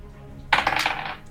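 Dice roll across a table during a tabletop role-playing game, a sudden rattling clatter of hard tumbling bounces that lasts under a second and then fades as the dice settle.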